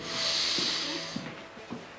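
A deep breath drawn in at a doctor's request during a medical examination: one long, breathy hiss for about a second, then faint, soft low sounds as it fades.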